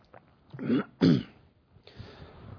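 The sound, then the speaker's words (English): A person clearing their throat because of a tickle: two gruff, rasping bursts in quick succession, then a fainter rough, breathy sound. “Excuse me, I've got a tickle in my throat.”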